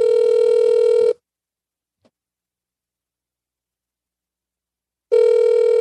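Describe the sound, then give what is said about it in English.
Ringback tone of an outgoing phone call: a steady buzzy ring plays, cuts off, and after about four seconds of silence a second ring begins. “I don't know if she's going to pick up. All right. Let's see. Voice call.”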